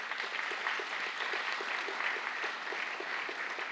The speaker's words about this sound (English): I'm going to ask Danny and Gina Fleener to join me on the stage and give them a hand so they feel welcome, would you?